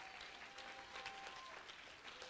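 A church audience claps hands in steady, continuous applause that stays even and faint from start to finish.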